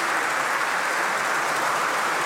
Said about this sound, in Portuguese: Aplausos Sr. Presidente, do PS e das bancadas dos convidados.